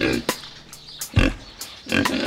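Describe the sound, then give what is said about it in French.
A small pig oinks in a few short, snorting grunts separated by brief pauses, moderately loud with no talk over them. “Ce petit cochon fait.”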